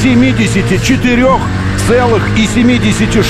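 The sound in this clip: Loud, steady engine roar of an American two-door hypercar driving at 474 km/h during a top-speed record run, with a voice talking over it.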